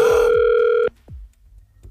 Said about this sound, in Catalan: Sí, he marcat el telèfon de l'Eulàlia.